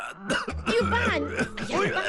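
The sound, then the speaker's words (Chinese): Throat-clearing coughs from an older man who has been told to lie in bed, rough and repeated, mixed with voices talking over them. “你看，师傅都被我感动的咳嗽了。”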